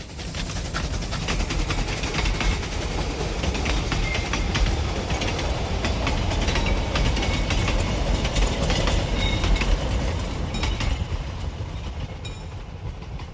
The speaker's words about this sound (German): Der Zug fährt hier 8:55 vorbei.